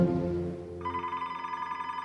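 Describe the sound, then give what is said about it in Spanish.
A telephone rings with an incoming call, its trilling, warbling ring starting partway through and continuing steadily to the end. A low, muffled rumble comes before it. “Entonces, Berta y Jairo reciben una llamada del consulado de Colombia allá en Miami”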